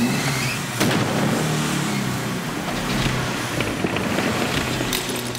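A car engine revving with a continuous rough, noisy roar that swells slightly a few times and never drops away, heard alone without voices.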